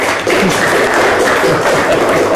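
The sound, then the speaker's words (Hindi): Quiz-show audience applause after a team gives a correct answer: a dense, steady wash of clapping that holds at an even level for about two seconds. “तालियां।”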